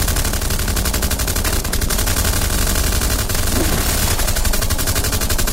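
Sustained rapid machine-gun fire during a siege, a dense, loud rattle of shots that runs without a break for the whole stretch, with no voices standing out.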